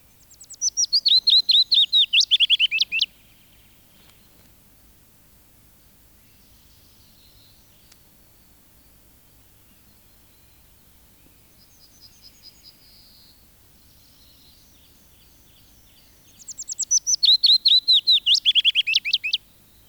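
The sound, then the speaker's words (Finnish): Willow warbler song: two bright, high phrases of rapid notes sliding downward in pitch, one at the start and one at the end, separated by a long quiet stretch with faint chirps from other birds. “Pajulintu.”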